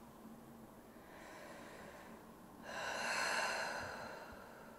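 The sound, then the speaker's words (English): One slow, deep breath is drawn during a guided healing session. The soft, airy sound swells steadily, peaks and then fades away. It is fairly faint and heard alone. “Take a breath, take a deep breath.”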